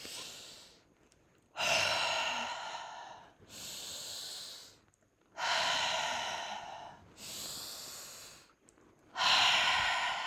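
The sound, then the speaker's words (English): Forceful breathwork breathing, with deep inhales through the nose alternating with powerful exhales through the mouth. Several loud, hissing breath cycles repeat in a steady rhythm, with short pauses between them. “the breath that I like to use is the Halo Active, where it's a deep inhale through your nose and then a powerful exhale through your mouth. And it sounds like this.”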